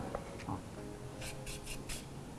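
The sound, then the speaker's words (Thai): Faint dry scraping as the skin is peeled off a lotus root, a few short rasping strokes in quick succession with no talk. “จากนั้นเราก็เริ่มปอกเปลือกครับผม”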